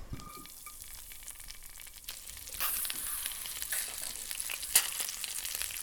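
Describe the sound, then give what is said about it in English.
Frozen mealworms fry in oil in a pan with a steady, soft sizzle that grows louder partway through, then one sharp pop. “Okay, they're curling in the pan as they fry. No idea how long to fry them for. Oh, they're popping.”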